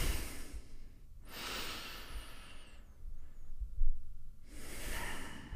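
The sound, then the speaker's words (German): Deep breaths during a guided breathing exercise: three long, airy rushes of breath in and out, separated by brief pauses, with a soft, steady breathy texture and no talking. “Und wir nehmen zwei, drei tiefe Atemzüge gemeinsam.”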